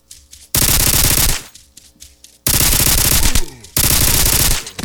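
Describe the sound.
Automatic gunfire in a video game comes in three long bursts of rapid, loud shots, separated by short quieter pauses.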